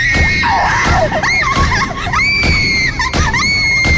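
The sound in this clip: A person screaming loudly at night, a sustained high, wavering cry that bends up and down in pitch and barely breaks across the whole stretch.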